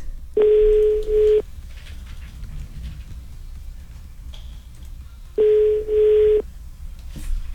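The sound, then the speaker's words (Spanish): A telephone being dialed, heard as two steady, mid-pitched tone bursts about a second each, separated by a few seconds of low background hum, with no talking. “Marcando, mi Charlie.”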